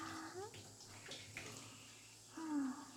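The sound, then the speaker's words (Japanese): Hot water is poured over a man's back in a bath, giving soft, faint splashing and trickling with a few light squeaks, louder toward the end. “お兄さん、お湯かけていきますね。”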